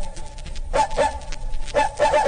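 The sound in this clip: A house dog barks sadly in a few short, whining yelps spaced apart over a soft, low background.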